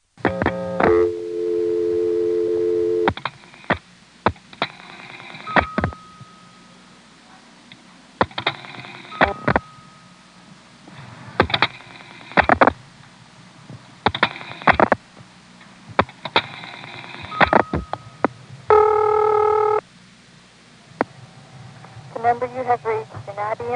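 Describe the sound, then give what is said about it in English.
A 1973 telephone call, dialed near Manassas through a register sender to a vacant level, brings bursts of electronic tones and sharp switching clicks, separated by near-silent gaps. A voice is also heard. “This was dialed by dropping the register sender, and then dialing 7 for Manassas, 7 for 367 via Manassas, and then a vacant level.”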